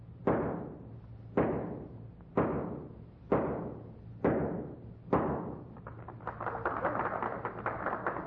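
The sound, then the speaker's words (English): Six evenly spaced gunshots from a .38 caliber revolver fired to drive a spike into a pine board. Each is a sharp, loud crack with a decaying tail, followed by a rapid crackling patter. “Finally, Miss Oakley will drive a spike into a pine board with six shots from a .38 caliber revolver, from a distance of 20 paces.”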